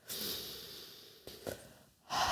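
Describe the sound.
Soft, airy inhalation during a guided breathing exercise, faint and drawn out. A brief breathy catch follows in the middle, then another breath begins at the end.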